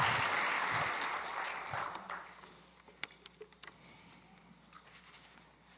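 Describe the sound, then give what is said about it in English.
A church audience applauds as a speaker is welcomed to the pulpit, a loud burst of clapping that gradually thins out and leaves a few scattered, isolated claps trailing at the end. “would you put your hands together and welcome him to this pulpit?”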